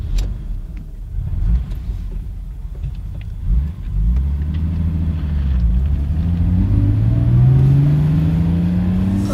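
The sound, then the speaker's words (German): A Mercedes car engine starts and runs with a low rumble, then revs with its pitch climbing steadily through the second half. Fairly loud and steady, with no voices. “Ich kam durch die Glastür ins Freie und Altmaier ließ Buckys Mercedes an.”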